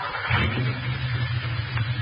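A car drives with a steady low engine drone and a constant wash of road noise. The sound is even and unbroken, with no voices.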